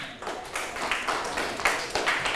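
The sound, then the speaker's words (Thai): Classroom students clap for a group of their classmates, a brief burst of scattered hand claps of moderate loudness that stays steady for a couple of seconds. “ปรบมือให้กับเพื่อนกลุ่มที่1หน่อยค่ะ”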